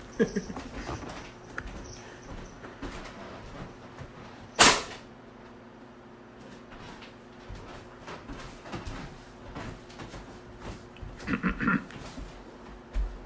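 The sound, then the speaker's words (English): A hand punching an electric fan gives one sharp, loud smack that stands out against a quiet background of faint, scattered knocks. “That was the sound of me punching a fan.”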